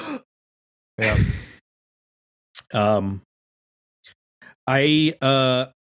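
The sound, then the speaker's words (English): A voice imitates the sharp breath intake a singer takes before singing: one quick, breathy hiss, then short voiced bursts that sound like sung notes, separated by brief gaps. “now all they hear is him taking that breath and going,”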